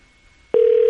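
Ringback tone on an outgoing phone call: near silence, then a steady, single-pitched tone starts abruptly halfway through and holds unbroken to the end.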